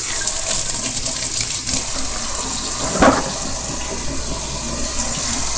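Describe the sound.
Tap water runs steadily over a freshly peeled egg being rinsed at a sink, a continuous loud splashing rush with one brief louder gush midway and no voices.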